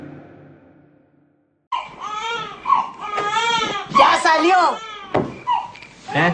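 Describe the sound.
A newborn baby boy cries in loud, wavering wails that rise and fall in pitch. The cries break out suddenly after a quiet opening and continue in repeated bursts.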